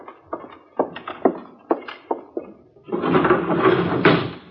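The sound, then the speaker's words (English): A hotel window being opened: a series of sharp wooden knocks and clunks, followed by a sustained scraping, rattling rush of noise that holds to the end. “There's someone at the window. You seem very nervous. Open it. Certainly.”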